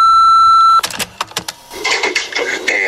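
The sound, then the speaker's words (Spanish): An answering machine sounds its beep before a message, a single loud, steady high tone lasting under a second, then breaking off into scattered clicks and rustling noise. “Si quieres dejar un mensaje, puedes hacerlo después de oír la señal.”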